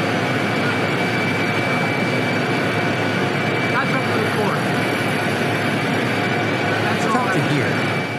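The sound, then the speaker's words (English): Helicopter rotor blades drone as a loud, unbroken wash of engine noise throughout, while a reporter calls out questions to a president and voices talk beneath it. “the sound of the chopper blades going in the background there”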